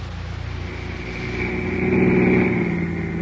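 A car driving along, its engine a steady low drone that swells slightly toward the middle and holds, with no talk.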